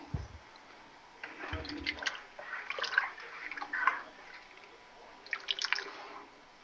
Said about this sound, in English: Now, let me stir this up again.